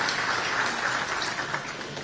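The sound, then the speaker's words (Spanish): Audience applause at a Sunday church service, a steady dense wash of many hands clapping, moderately loud and even throughout, with no voices over it. “los que estamos aquí, los recibimos con un caluroso aplauso”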